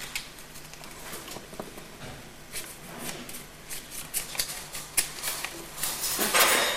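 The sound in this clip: Someone shuffles a deck of playing cards, making a dense run of crisp, papery riffling clicks and patters that grow busier and louder toward the end.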